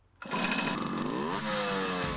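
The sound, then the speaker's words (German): Moped engines from a small moped club rev with a loud, buzzing whine. The pitch climbs steadily, then drops and settles into a steady drone, with no voices. “Hier wird wieder anders Gas gegeben. Die Kutte ist trotz der Hitze ein Muss, ist klar. 16 Mitglieder hat der Motorrad, nein, der Mofa-Club 49ers.”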